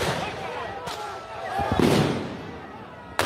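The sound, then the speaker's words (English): Sharp, loud reports from police firing rubber bullets and tear gas at people on the street during a drug-area clearance. A few abrupt bangs stand out over continuous rough background noise. “It's of police clearing an area notorious for drugs. They're firing rubber bullets and tear gas at street people.”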